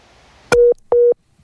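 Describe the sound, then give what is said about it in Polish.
A telephone tone sounds after a call is disconnected: two identical, evenly spaced mid-pitched beeps, each with a sharp click at its start, loud and clear over faint line hiss. “niespodziewanie skończyło się połączenie z Hanną Shen z Tajwanem”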